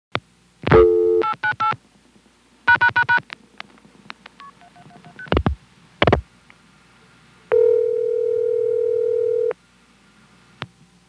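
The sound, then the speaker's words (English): Touch-tone keypad dialing of 898 followed by the pound key pressed four times during a telephone signaling test: clusters of short, clean beeping tones, then a steady two-second tone and a final click. “Let's try dialing 898 and press the pound key 4 times.”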